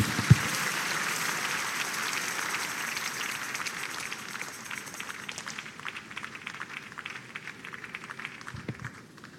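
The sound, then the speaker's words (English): Church audience clapping during a morning service, a steady patter of many hands that runs on for several seconds and slowly thins and fades toward the end. “Please put your hands together for Jesus.”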